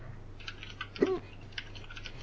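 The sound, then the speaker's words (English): Typing on a computer keyboard: a few light, irregular key clicks, faint and sparse over a steady low hum. “I'll type it for him.”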